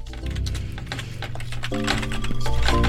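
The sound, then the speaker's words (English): A computer keyboard missing a rubber foot rocks on a desk, making a run of quick, uneven plastic clicks and knocks. “What is with this keyboard? It's only one of its feet up. It has no feet. Oh, it's missing a rubber. Missing a rubber foot. That's why it's jumping around.”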